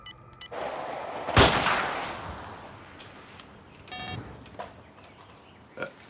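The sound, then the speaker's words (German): Rifle gunshot from a badly sighted-in rifle during a wild boar hunt: one loud, sharp crack with a trailing decay, followed by fainter bangs. “Das Gewehr ist schlecht eingeschossen. Das schießt ja, wohin es will.”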